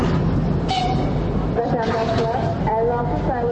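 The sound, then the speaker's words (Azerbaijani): Ambience of Baku railway station near the waiting area for departing trains: a steady, dense rumble of rail and crowd noise with brief high, tonal squeals appearing several times over it. “Bakı vağzalında isə gəncləri çox görmək olur. Onların çoxu ölkədən gedən qatarların gözləmə hissəsində dayanıblar.”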